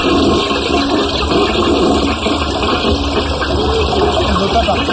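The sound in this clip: A toilet flushes with loud, steady rushing water that fills the whole clip without a clear start or stop, over a low, even hum.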